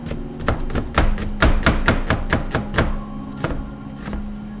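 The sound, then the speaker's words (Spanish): A knife slices an onion into thin strips on a board, with many quick, regular chopping strikes that thin out and grow sparser toward the end, over a steady low hum. “pero es como cortar la cebolla en plumita. ¿cierto? Que es cortar la cebolla en plumita, pues cortarla como en palitos, ¿cierto?”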